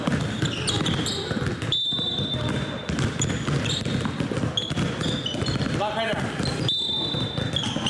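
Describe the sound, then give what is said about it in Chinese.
A basketball bounces repeatedly on court during training at a children's summer basketball camp held at a mountain sports ground, with steady dribbling throughout and people talking over it. “张娟要去高山运动场看一下另一个篮球夏令营，他们已经入住景区3天了。”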